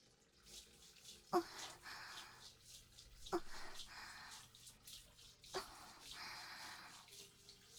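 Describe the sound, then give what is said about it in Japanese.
Quiet sloshing and splashing of hot, soapy water as something is washed by hand, with a few distinct louder splashes over faint dripping and trickling. “泡足してと、よいしょ、熱い、洗うね。”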